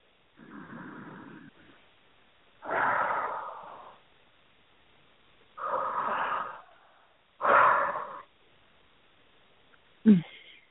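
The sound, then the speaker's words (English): Slow, deep breathing during a guided healing meditation, with a few long, airy breaths in a steady, unhurried rhythm, heard alone without talk. “One more deep breath.”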